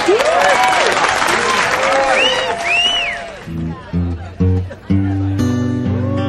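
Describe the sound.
An audience applauds and whoops to welcome a performer at a live music show, loud clapping mixed with high cheering calls, which then gives way to a few sustained instrument notes.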